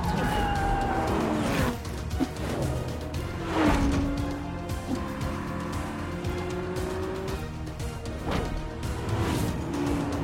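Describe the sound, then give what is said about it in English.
A car engine roars during a street chase, with sweeping, shifting engine tones and a few sharp bursts over a steady rumble. “The supervillain changes lanes, then makes a sharp turn. They race down the street.”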